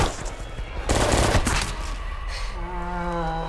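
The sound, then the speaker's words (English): Gunfire from a patrol shooting at a cleaver-wielding mutant: one dense, rapid burst of shots lasting about half a second, loud against the low rumble around it. “Missy and Amber run for it as the other members of the patrol break cover and riddle Cleaver Man full of bullets.”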